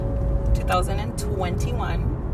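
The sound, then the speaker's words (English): Inside a Honda Civic driving to the San Fernando Valley, a steady low road rumble runs under people talking. “I'm sitting in the car, like I said, in my Civic. We're driving to the valley.”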